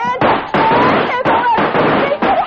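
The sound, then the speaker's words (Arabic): Gunshots in an Egyptian radio drama: about four sharp, loud cracks break through a dense, steady bed, with a voice talking in between. “ابعد يا سميره حتى رصاص الكلب ده يجي فيكي.”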